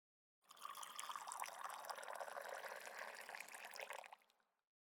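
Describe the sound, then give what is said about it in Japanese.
Hot water poured for tea, a steady splashing stream that starts abruptly, holds an even level for about four seconds, then quickly stops, with no voices. “お湯を入れ終わったから、お茶が出るまで少し待機だね。”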